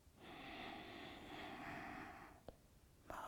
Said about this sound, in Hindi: गहरी सांस अंदर, सांस छोड़ें एक बार और